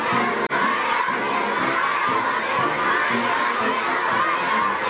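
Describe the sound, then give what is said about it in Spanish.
Crowd cheering and shouting at the US president's arrival in China: loud, continuous massed cheers and excited high-pitched shouts with chatter mixed in, sustained at an even level throughout. “Este es el sonido ambiente a su llegada, la verdad. Podría ser el ambiente de la fiesta de mi calle, pero háganme caso, es el ambiente de la llegada de Donald Trump a China.”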